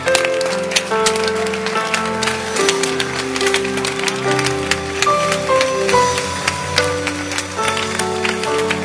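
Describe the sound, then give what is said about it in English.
An audience claps its hands in rhythm with a song, the sharp, regular claps running steadily over instrumental music with sustained notes. “Don't stop clapping.”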